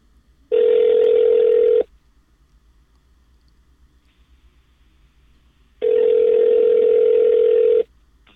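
Ringback tone of an outgoing telephone call: two long, steady, buzzy tones, each lasting about one and a half to two seconds, separated by a long silence, with no voices.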